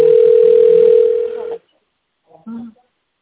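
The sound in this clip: A telephone line tone plays while a call waits to connect: one steady, unbroken mid-pitched tone for about a second and a half, then it cuts off, followed by silence and a brief voice.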